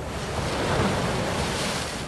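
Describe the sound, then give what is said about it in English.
Waves from the Mediterranean Sea crash over a crumbling sea wall at Alexandria, making a loud, continuous roaring wash of surf that swells slightly in the middle, with no voices. “of Alexandria, the crash of the waves from the Mediterranean Sea sends foam over the crumbling sea wall onto the hundreds of concrete barriers set up to protect the ancient city from the rising sea.”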